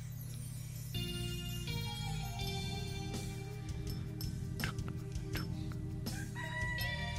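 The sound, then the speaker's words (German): A rooster crows repeatedly on a farm, and clucking hens join in over a steady, droning tonal background. The crows are loud, rising and falling, and there is no talk. “Dann warte ich. Und höre dem Hahn zu.”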